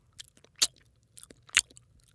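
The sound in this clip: Crisp chewing as a long-necked animal bites and munches tree leaves: a few soft crunches with two louder, sharper bites standing out, no voices.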